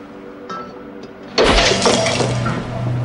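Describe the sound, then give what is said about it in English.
A vase shatters as it is smashed over a man's head. After a quiet start there is a sudden, loud crash of breaking glass, and shards clatter and ring for a moment afterward. “Danny's mum smashes a vase over Bart's head.”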